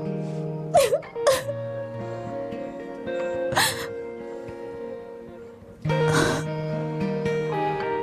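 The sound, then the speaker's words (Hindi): A girl crying in irregular bursts of sniffs, gasping sobs and whimpers, some sharp and loud, over soft sustained background tones. “रो लो, रोना अच्छा है बेटी।”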